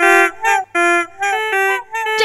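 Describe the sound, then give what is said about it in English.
Honking from something hidden inside the wainscoting of a lounge: a rapid run of loud, nasal, buzzy honks with rich harmonics and a wavering pitch, separated by brief gaps. “There's something honking in the wainscoting!”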